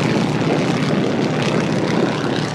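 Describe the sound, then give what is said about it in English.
A Boeing PT-17 Stearman biplane taxis on the Paradise City runway, its propeller engine giving a loud, steady, rough drone that holds without a break and without voices. “That's a PT-17 Stearman. Stearman, Boeing. I know. Thank you for calling that out. That was unusual. You don't see an airplane like that on this runway usually.”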